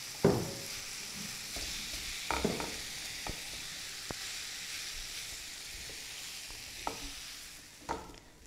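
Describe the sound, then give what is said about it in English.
Soft sizzling and stirring as about seven boiled, roughly hand-mashed potatoes go into a frying masala for samosa filling. A steady low hiss runs under a few sharp scraping knocks in the pan. “I'm going to add in the potatoes to this now. These are about 7 potatoes, boiled and mashed, roughly with hands.”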